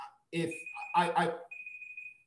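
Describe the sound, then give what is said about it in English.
A timer beeps with a high, thin, steady electronic tone that sounds under people talking, then carries on briefly by itself after the voices stop. “It's my own timer. No worries. My timer was set incorrectly.”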